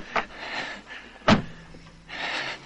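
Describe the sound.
A car door shutting as people climb quickly into a car in a 1981 crime film scene, a light knock first and then one solid thump, followed by faint movement sounds.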